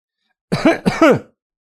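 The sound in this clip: A cautious cough near a staircase: two short, throat-clearing bursts in quick succession, fairly loud and alone in an otherwise silent moment.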